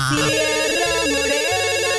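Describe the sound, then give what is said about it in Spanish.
A telephone ringing during a call-in radio show, with a rapid, warbling electronic trill that repeats steadily for the whole clip and stays loud and constant. “Se contestan las llamadas. Bajando. Bueno, yo lo contesto.”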